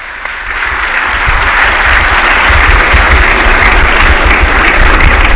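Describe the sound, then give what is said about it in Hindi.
An audience applauds loudly at a government ceremony honoring the prime minister, with dense, sustained clapping that builds slightly at the start and then holds steady to the end. “एक बार जोरदार तालियां.”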